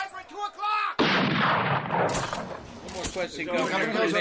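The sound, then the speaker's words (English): Sporadic gunfire across the street from a hospital during street unrest in Newark: a voice is briefly heard, then a loud shot cracks in, followed by rough, irregular bursts of shooting. “Sporadic gunfire has broken out immediately across the street from the hospital.”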